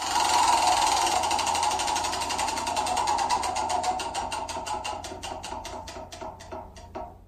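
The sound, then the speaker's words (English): A prize wheel spins with rapid ticking clicks that blur together at first, then gradually slow and spread apart until the wheel comes to rest. “last spin of this wheel”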